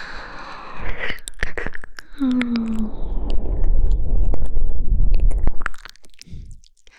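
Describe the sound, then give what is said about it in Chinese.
Close, wet tongue licking inside an ear during an ASMR role-play: squishy smacks and clicks run almost continuously over a low rumble, with a brief hummed tone early on. “被妈妈的舌头侵入你的耳穴。”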